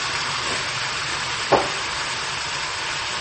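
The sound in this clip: Beans and other ingredients fry in a pan with a steady, even sizzle. One brief, louder crackle stands out midway, and no one speaks.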